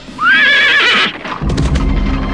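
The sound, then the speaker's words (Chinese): A horse neighs loudly from a horse-drawn carriage pulling up outside an inn. The shrill whinny rises and wavers, then gives way to a low rumble and hoof clopping as the carriage stops. “原来是蓝兔驾着马车停在了客栈外。”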